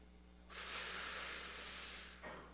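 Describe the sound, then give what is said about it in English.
A person draws one long, steady, airy breath lasting about two seconds, followed by a brief softer puff, quiet and with no talking. “So I want to invite us to take a deep breath.”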